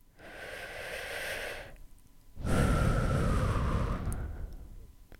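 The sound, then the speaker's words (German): Someone takes a deep breath in and lets it out, two long airy breaths separated by a short pause, the second fuller and louder than the first, with no talking. “Atme tief ein und wieder aus.”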